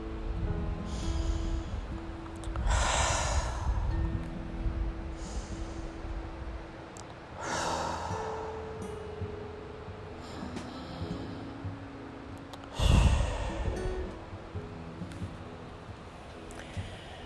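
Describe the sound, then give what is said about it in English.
Deep cleansing breaths during a relaxation exercise: slow, soft inhales and exhales repeat at an unhurried pace over a steady low hum, with no talk. “Let's take three cleansing breaths.”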